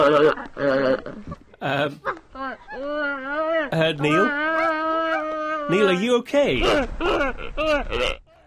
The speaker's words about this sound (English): that wonderful sound you just heard was in fact a gelada, a kind of monkey, which we'll be hearing more from later in the programme.